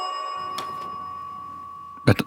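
A ringing ding chime used as a jingle: a bright, sustained bell tone that fades slowly, followed near the end by a short, louder burst of sound.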